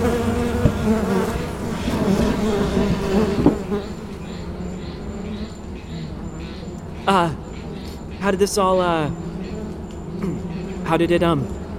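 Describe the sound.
Dense, steady buzzing of many bees from a large hive in an abandoned garage: a continuous droning hum that holds level through the whole stretch, with a few louder swells.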